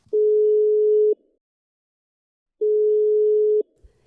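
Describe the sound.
Telephone ringback tone heard while calling a friend: two steady, low-pitched tones about a second long each, separated by a longer gap of silence, loud and alone.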